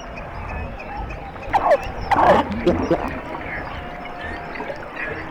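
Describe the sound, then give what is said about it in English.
Underwater sounds beneath sea ice, picked up by a hydrophone dropped a few feet below the ice: a few brief, bright squeaks and chirps rise out of a steady hiss around the middle, then fade back into the hiss. “What we literally did was drop the hydrophone down a few feet below the ice. It's like you're in a rainforest. There's all this chattering and whoop and squeaks and pops and whee and ah!”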